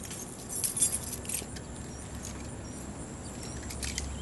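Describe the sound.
Car keys jangle in a few faint, bright metallic clinks early on, then settle into quiet background hiss.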